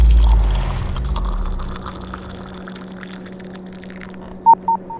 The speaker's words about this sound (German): Eingehende Nachricht.